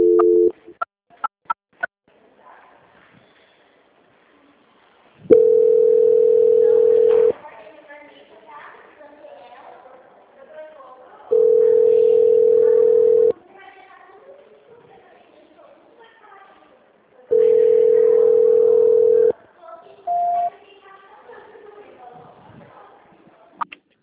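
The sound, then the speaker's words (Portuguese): A telephone line tone plays during a call transfer. Three long, steady beeps of about two seconds each are separated by quieter gaps holding faint low sounds. A few clicks come at the start and a short final beep near the end. “Eu tô tentando passar uma ligação lá, não atende na auditoria.”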